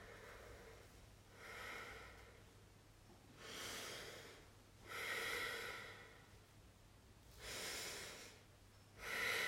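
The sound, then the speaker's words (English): Exaggerated breathing during a seated twisting stretch, inhaling to stretch up and exhaling to turn: five loud, drawn-out breaths alternate with quiet pauses over a faint, steady low hum. “I don't know if my exaggerated breaths are working or not.”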